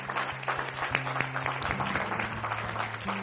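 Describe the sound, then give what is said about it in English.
A church audience applauds with scattered sharp claps over sustained low keyboard tones, at a soft, fairly even level. “you give them a round of applause”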